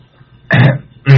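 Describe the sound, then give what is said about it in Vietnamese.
A man clears his throat after sipping water, two short gruff bursts in quick succession, heard alone. “Thầy Tám hớp miếng nước bằng rồi tằng hắng lấy giọng”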